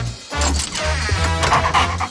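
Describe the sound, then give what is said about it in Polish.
A dog yipping and whimpering in a short burst of high, whiny cries and small barks, fairly loud and continuous over about two seconds. “Co, piesku, chcesz mi coś powiedzieć?”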